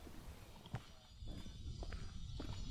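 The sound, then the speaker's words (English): Footsteps walking along a lake shore, faint and uneven, come as a few soft steps over a steady outdoor background hiss. “just walking along the shore of Lake McDonald”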